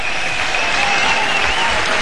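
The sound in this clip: Loud audience applause calls for an encore at the 45th San Sebastián Jazz Festival, a thick, continuous roar of many hands clapping at a constant level.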